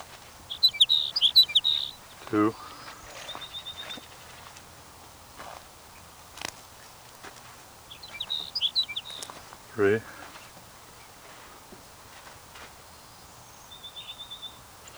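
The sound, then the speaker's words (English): Sage sparrow song: short, high, twittering phrases, faint and repeated a few times with gaps between, while a brief low voice is heard twice. “Your sage sparrow number 5.”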